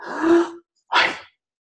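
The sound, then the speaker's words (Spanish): A person demonstrates a shallow breath when asked to breathe deeply, making two short, loud, breathy gasps separated by a brief pause. No talking is heard. “le decís, respira profundamente, y te hace así.”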